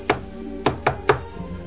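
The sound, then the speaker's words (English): Knocking at a door, a few dull, woody thumps in an uneven rhythm, with a fainter final knock trailing after the others. “Now a few months have passed, and alas, again there came a knocking at the door.”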